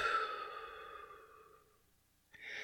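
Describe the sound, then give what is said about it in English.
A deep breath out through the mouth during a guided breathing exercise, one long, soft, airy exhale that slowly fades to near silence, followed near the end by the onset of another breath. “Deep breath in through the nose. Nice cleansing breath out through the mouth.”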